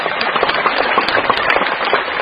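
An audience at a Buddhist teaching gathering claps loudly in a dense, crackling burst. Many sharp individual claps stand out from the continuous wash of applause.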